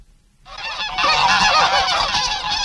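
Geese honk loudly after a brief quiet start, a dense stream of overlapping nasal honks and cackles from several birds that continues without pause.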